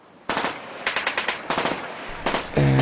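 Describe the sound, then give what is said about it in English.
Automatic gunfire comes in four rapid bursts of sharp, loud shots, each burst lasting a fraction of a second, with short gaps between them. “Sound of noise of gun as you hear, boom, boom, boom, boom”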